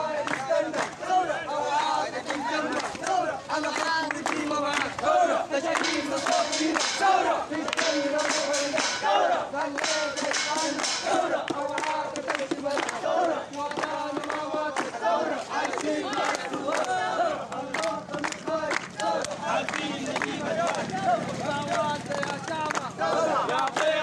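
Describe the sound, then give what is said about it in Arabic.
A large crowd of protesters shouts slogans in unison at a street demonstration. Loud, rhythmic chanting voices continue without a break for the whole stretch. “وردد المتظاهرون هتافات”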